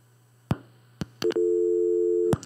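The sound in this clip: Telephone line after a dropped call: a few sharp clicks, then one steady tone held for about a second before another click cuts it off, over a faint low hum.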